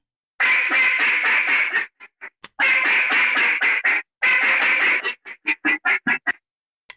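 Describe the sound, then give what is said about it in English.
A duck call blown in cut-down style: three loud runs of rapid, raspy quacks, each lasting about a second, broken by short pauses and followed by a string of short, clipped single notes. “a cut-down call, you take this and you actually throw it out like kind of a cut-down call style.”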